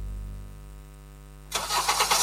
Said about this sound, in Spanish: En Karen, seguimos con motores encendidos.